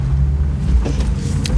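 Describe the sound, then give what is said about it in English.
A car drives with its windows down on a fall evening, giving a loud, steady low engine and road rumble that holds unbroken through the short stretch, with no voices. “I'd drive in the car, and so I'm used to that. Got the windows down, beautiful fall evening”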